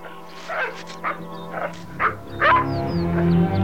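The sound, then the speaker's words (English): Dogs bark and yip in a string of short, sharp bursts as they playfully jump up on a man in a beige raincoat, with a steady low hum underneath. “He turns and sees the dogs playfully jumping up on a man wearing a beige raincoat.”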